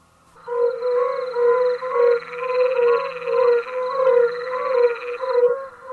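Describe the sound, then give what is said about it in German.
Frogs croak in a dense, steady chorus of rattling, pulsed calls that start after a brief quiet moment and continue loud and unbroken to the end. “Wir hören hier jetzt Froschgequäke”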